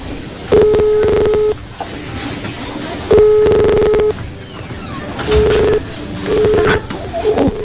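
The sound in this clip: A telephone is dialed, producing steady electronic tones that repeat several times with gaps between them. The tones sit over loud, busy background noise, and the later ones are shorter.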